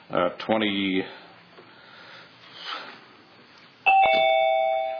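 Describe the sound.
A doorbell chimes after a stretch of speech: clear bell tones strike suddenly near the end and ring on, slowly fading.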